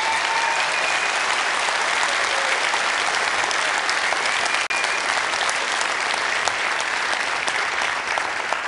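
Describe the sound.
A church audience applauds on Mother's Day to welcome the pastor's mother, a dense, even wall of clapping that stays steady and loud from start to finish.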